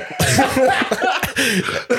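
Harsh coughing and choking splutters break through a German football chat about a goal celebration: a few rough, voiced bursts, loud and uneven, with a laughing quality between them.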